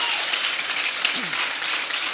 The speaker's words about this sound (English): let's give Kyle and Danielle a round of applause